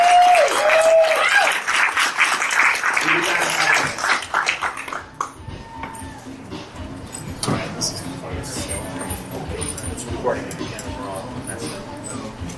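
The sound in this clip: An audience at a live show applauds a departing guest. A dense wash of clapping opens the passage and thins out after a few seconds, then voices talk over scattered, fading claps.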